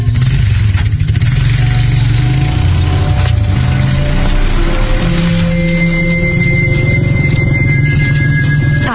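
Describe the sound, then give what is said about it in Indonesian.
A motorcycle engine pulling away, a loud, steady mid-pitched rumble and drone that stays at an even level for the whole stretch, with no voices. “kulihat motor temanku perlahan pergi dari kejauhan dan tidak terlihat lagi.”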